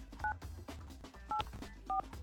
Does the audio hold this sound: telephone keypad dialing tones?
yes